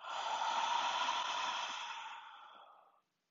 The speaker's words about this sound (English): We're inhaling and exhaling.